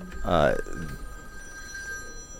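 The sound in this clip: A phone rings with a steady electronic tone that holds throughout, while a voice speaks briefly near the start.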